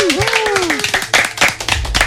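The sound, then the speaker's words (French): Audience claps to greet a guest on a game show, with scattered sharp claps and short bursts of applause under people talking. “Un tonnerre d'applaudissements pour Zoé.”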